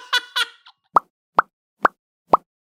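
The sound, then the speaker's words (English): A mouth imitates a bubble pop with four short, crisp popping clicks at an even spacing, after a brief voice at the start. “That's someone's mouth going... That's it, yeah.”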